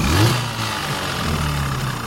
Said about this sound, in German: Vorneweg fahren die Motorschlitten.